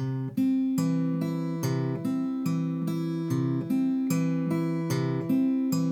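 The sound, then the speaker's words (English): An acoustic guitar is fingerpicked on a C chord, the thumb alternating between the A and D strings while the middle and ring fingers pluck the B and high E strings, giving a steady, even stream of many ringing single notes. “A great exercise to start out is to go ahead and grab that C chord, use your thumb on the A string, middle finger on the B, thumb drops to the D, ring finger on the high E.”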